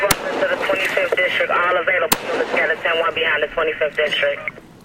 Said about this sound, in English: Shots still being fired.